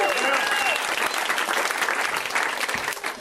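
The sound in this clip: Applause from a comedy show audience for a comedian: a brief cheer at the start, then dense, steady clapping that thins slightly toward the end.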